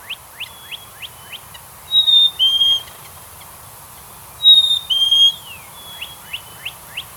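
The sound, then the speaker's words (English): A bird calls: a run of short, quick chirps, then two longer high whistled phrases, then more short chirps. The calls are fairly clear above a faint, steady low background. “you sent some bird sounds over today. I loved them, and I want to start right there with one.”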